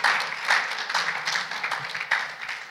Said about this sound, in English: Let's give our visitors a hand this morning.